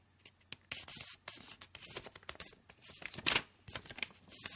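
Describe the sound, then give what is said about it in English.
A sheet of paper being folded lengthwise again into a long strip, giving many crisp crinkles, rustles and scraping creases. The short bursts are irregular and fairly close together, with a sharper crackle near the middle. “Now, I want you to fold it again, like that, okay? So that you get a long piece, like that.”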